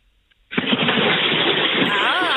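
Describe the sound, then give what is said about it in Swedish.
A sudden heavy splash as someone plunges into cold water for a dip at Färboden in Jämtland, breaking a near silence and settling into a loud, steady rush of churning water. “Så ska det låta. Så där låter ett bad.”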